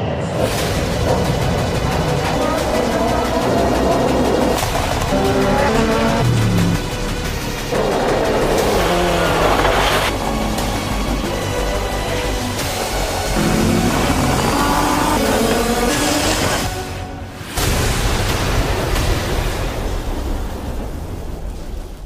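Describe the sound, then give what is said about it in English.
Loud, continuous roar of Super GT race cars on a track in Japan, from a 2018 season promo: dense, steady engine noise with shifting pitched whines and a brief dip near the end. “The series features some of the fastest cars racing around some of the greatest tracks in Japan.”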